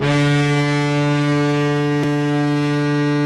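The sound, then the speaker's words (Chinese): A naval warship's horn sounds as the reviewing ship sets sail for a fleet review at sea: a loud, steady, deep tone with rich harmonics holds unbroken throughout. “在飞行甲板检阅舰艇仪仗队，随后检阅舰鸣笛起航，在护卫舰艇拱卫下向阅兵海域进发。”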